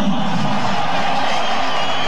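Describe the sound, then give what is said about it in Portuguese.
Stadium crowd applauding the home goalkeeper as players are announced before a football match, a dense, steady roar of clapping and cheering with no clear breaks. “Cara, bem aplaudido o nosso goleiraço.”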